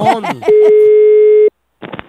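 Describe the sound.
A telephone ringing tone sounds on the line as a single steady, mid-pitched tone lasting about a second, clean and loud, with brief voices just before and after it.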